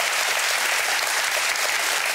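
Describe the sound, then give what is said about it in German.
A studio audience applauds with steady, dense clapping that holds at an even level throughout, with no voices over it. “Schicken Sie ihm mal einen großen Applaus.”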